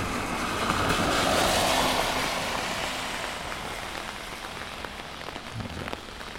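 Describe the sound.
Rain patters steadily on an umbrella during a field recording walk, a dense, even hiss of drops that is slightly louder at the start and eases a little toward the end.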